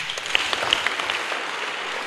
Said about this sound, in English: Clap for them.